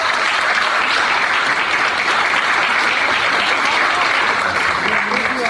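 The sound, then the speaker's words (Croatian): Big applause for folk dance groups from Slovakia, Belarus, Serbia, Croatia and Montenegro at a folklore performance: loud, dense, steady clapping that holds an even level throughout. “Molim jedan veliki aplauz za sve njih.”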